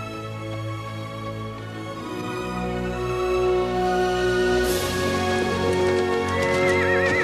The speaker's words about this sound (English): Pilgrim gallops through the field, kicking his hind legs and following Tom at a few yards' distance.